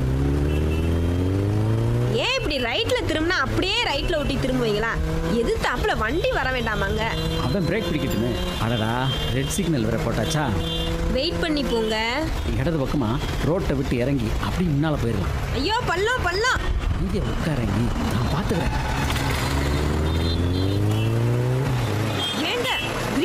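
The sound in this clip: A motorcycle carrying a helmeted rider and passenger revs and pulls away, engine pitch repeatedly climbing and dropping through gear changes, with people talking over the engine.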